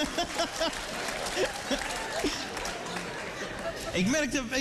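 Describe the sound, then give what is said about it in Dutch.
Applause from an audience, a dense, steady patter of many hands clapping with voices audible through it, continuing throughout and swelling slightly near the end. “maar daar gaan we voor klappen.”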